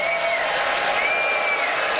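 Applause from an Ottawa audience voting for a debater's points at a live debate event: dense, steady clapping and crowd noise that holds without a break for the full two seconds.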